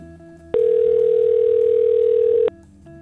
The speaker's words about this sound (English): Oh, come on, Alan. Pick up the phone.